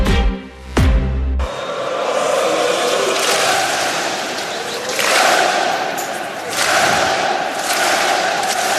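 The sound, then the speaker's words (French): Rennes football supporters clapping in rhythm to cheer their players: a loud, sustained crowd roar broken by slow, evenly spaced surges of clapping and shouting. “C'était il y a quelques secondes pour féliciter les joueurs rennais, ce clapping des supporters”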